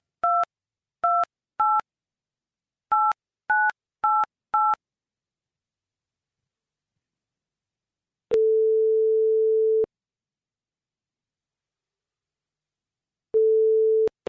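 Seven short telephone keypad beeps of dialling a number, followed by a steady line tone sounding twice, each long tone separated by silence and the second cut off at the end; no voices.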